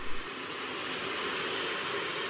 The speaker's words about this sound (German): lässt die Turbinen an.